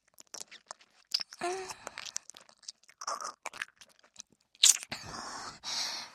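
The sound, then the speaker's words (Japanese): Tapioca pearls being chewed: soft, wet, squelchy mouth sounds and smacks come in irregular bursts, some louder and some faint, with short quiet gaps between them. “タピオカってもちゃもちゃしてて飲み込むの大変なんですよね”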